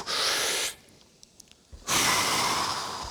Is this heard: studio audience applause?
no